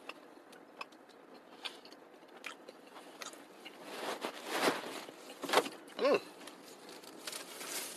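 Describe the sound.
Chewing gummy candies: faint, irregular soft smacks and sticky clicks that grow louder and denser partway through, with a few stronger squelching bursts near the end.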